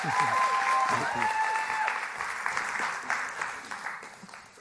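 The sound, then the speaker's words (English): A church audience claps to welcome a guest pastor, with dense, steady applause that slowly thins out as a voice speaks over it. “would you guys welcome, put your hands together and welcome Pastor Steve Holsinger this morning to church? Come on, give him a hand, would you? Big, big hand, come on.”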